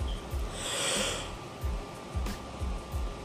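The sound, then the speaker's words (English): A person yawning: a long, breathy exhale that swells and fades over about a second, followed by a few softer breathy puffs, with a faint steady hum underneath. “excuse me for yawning on the podcast show”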